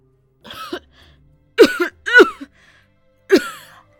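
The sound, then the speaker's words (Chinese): An injured man coughing hoarsely: four harsh, rasping coughs and throat-clearing bursts separated by short pauses. The coughs are loud and heard alone, without talk. “咳了好一阵儿，这才缓过气来”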